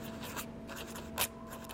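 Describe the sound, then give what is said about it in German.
A pen scratches across an envelope as a place name is written and then underlined with a sweeping stroke. The scratchy strokes are soft and steady, with one louder, sharper stroke standing out near the end. “Scarborough, schreibt Mrs. Flanders auf den Umschlag und wirft eine schwungvolle Linie darunter.”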